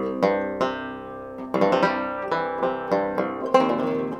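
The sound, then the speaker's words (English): Cello banjo being played: many low, resonant plucked notes with a twangy, ringing attack, each decaying under the next in a steady, unhurried melodic line, with no voices. “but what is this thing? It's a cello banjo and sounds like this.”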